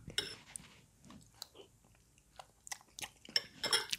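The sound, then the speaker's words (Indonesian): Chewing and crunching from someone eating soto-flavoured instant noodle soup with cutlery, heard as irregular soft bites and mouth sounds mixed with brief sharp clicks, with no talk. “kebetulan ada mie kuah soto ya udah aku masak mie kuah soto ya udah aku bawa ke kamar makan gitu ini masih ada di sini tak ya nih aku coba ya”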